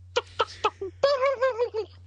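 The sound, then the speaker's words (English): A person's voice imitates turkeys: four short, sharp clucking bursts, then a longer warbling gobble with a rapidly pulsing pitch. “Get away, turkeys. That's turkey speak for get away.”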